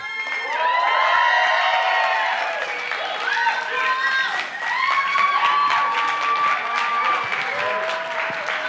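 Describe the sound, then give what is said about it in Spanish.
A live radio studio audience cheers and applauds, with loud whoops and shouts rising over continuous clapping that dips briefly midway, then swells again. “Porque estamos en vivo en la radio, para que escuchen a este bonito público maravilloso que nos acompaña el día de hoy.”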